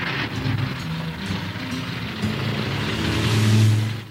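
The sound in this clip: A car drives off with a low, steady engine hum under a wash of road noise. The engine grows gradually louder toward the end before easing slightly.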